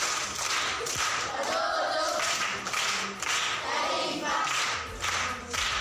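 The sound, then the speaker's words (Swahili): A class of primary school children applauds a pupil. The clapping comes in several loud, fairly even waves of many hands, each separated by brief lulls. “Mwingine makofi kwa mjomba.”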